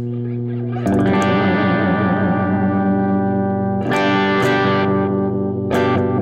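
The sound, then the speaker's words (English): Guitar played through a modulation effect pedal with the depth turned down, a few strummed chords ringing out in a sustained, slightly distorted tone with a mild chorus-like shimmer and echo, no voices. “You want to hear less depth? There's like a pinchy spot in the blend knob. Okay, the depth is turning down.”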